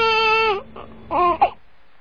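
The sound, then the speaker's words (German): A baby cries with one sustained, loud wail, then a short pause and two briefer, sharper cries. “Watch this power that I have over this baby. Ready? Schau mal, was ich für Kraft und Macht habe über dieses Baby. Go. Cry, baby.”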